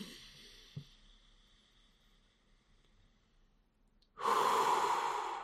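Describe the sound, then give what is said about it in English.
Deep breathing that fills the stomach and chest: faint, soft breaths for several seconds, then one long, loud, rushing inhale near the end. “let your stomach and your chest really move as you breathe”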